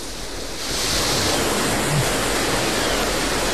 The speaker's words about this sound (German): Die Wellen werden größer, ne?